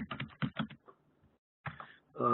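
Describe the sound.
Quick keystrokes on a computer keyboard, a rapid run of clicks followed by a pause, then a few more keys, with a voice starting at the very end.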